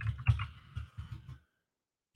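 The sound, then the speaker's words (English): Typing on a computer keyboard: a quick run of soft, muffled key clicks for about a second and a half, then silence and one more brief burst at the end. “it's even getting hard to type”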